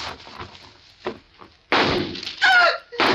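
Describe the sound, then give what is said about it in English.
Gunshots are fired into a car's tires: three loud, sharp blasts that each trail off briefly. One blast carries a short falling whine, and fainter knocks come before them. “I just shot a couple of holes in your tires, that's all.”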